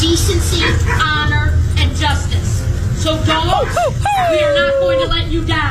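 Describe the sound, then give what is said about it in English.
Dog whimpers and yips at a political rally: several high, wavering whines rise and fall over a constant roar of crowd noise and murmuring voices. “It's so great to be with all of you and the dogs.”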